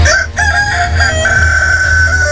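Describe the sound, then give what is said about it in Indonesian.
A rooster crows in one loud, sustained call with a strong harmonic tone, held for about two seconds. “aku akan menghancurkannya dengan ayam jantan saktiku ini.”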